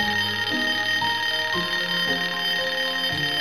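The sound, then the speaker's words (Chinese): A small golden alarm clock rings loudly and without pause, a bright electronic ringing whose tones shift every half second or so, with no voices. “是闹钟把他吵醒的。以前他家里别人送了一个金色的小闹钟，一到点就非常响的那种，要按了才会停，不然会一直叮叮叮。”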